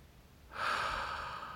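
A single long breath during a guided breathing exercise: after half a second of quiet, a steady airy rush begins and holds evenly for about a second, alone with no talk.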